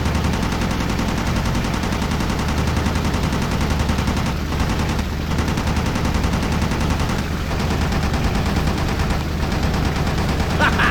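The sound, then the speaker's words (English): Rapid machine-gun fire from a fighter plane shooting at targets in a naval combat video game tutorial, a dense, loud, continuous rattle that runs almost unbroken, with a few brief dips. “now shoot down those targets. Press the use weapon key to fire.”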